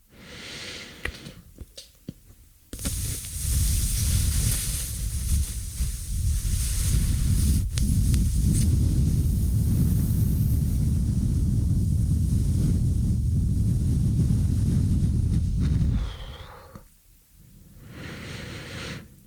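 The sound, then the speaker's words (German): A slow exhale through puffed cheeks during a qigong breathing exercise: a long, steady, airy hiss of about thirteen seconds that starts abruptly and tapers off at the end, heard alone. “Ich puste jetzt meine Backen auf und dann lasse ich ganz langsam die Luft wieder raus.”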